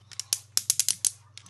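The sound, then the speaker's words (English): Ratchet joints of a transforming headmaster toy figure being moved: a brief series of many sharp, dry plastic clicks in an irregular rhythm over a faint low hum. “the ratchet joints in the hips, the knees, the ankle pivots, his hands can even open.”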